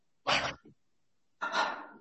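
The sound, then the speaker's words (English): Two quick, forceful exhaled breaths during a breathing exercise with the head turned left. Two sharp bursts of air are separated by a pause of about a second, and the first has a small trailing puff. “I'm turning my head to the left and I exhale two quick breaths.”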